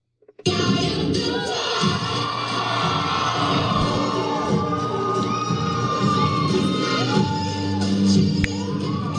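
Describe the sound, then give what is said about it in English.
A lively crowd cheers at a drag show and story hour, a loud, sustained roar of shouts, whoops and excited voices that starts abruptly and stays dense and energetic throughout. “Lively audience of the Can't Drag Us Down drag show and story hour.”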